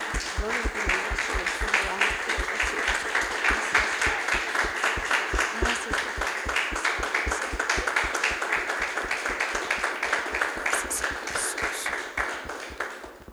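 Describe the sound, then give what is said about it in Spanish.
Church audience applauding: dense, continuous clapping that stays loud and steady for about thirteen seconds before easing slightly at the end. “¿No le dan un aplauso, hermanos?”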